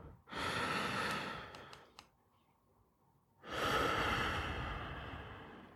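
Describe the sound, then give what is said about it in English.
A deep breath: a long, airy inhale of over a second, a short quiet pause, then a fuller exhale that slowly fades. It is soft and alone, with no talking. “Take a deep breath.”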